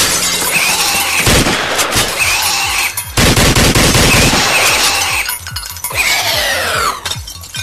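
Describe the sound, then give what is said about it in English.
Video game gunfire crackles in loud, rapid bursts of automatic shots with sharp, crashing impacts, repeating in several dense volleys throughout and easing slightly toward the end. “It's like target practice. The more you shoot, the better you get.”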